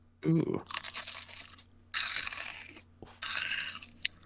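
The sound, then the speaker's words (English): Crunchy food eaten at dinner, with a few loud, dense crunching bursts separated by short pauses, starting with one sharp bite. “I am eating my dinner.”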